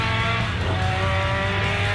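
A car drifts with loud, sustained tyre squeal over a constant roaring engine, the screech and engine drone running unbroken throughout with no voices.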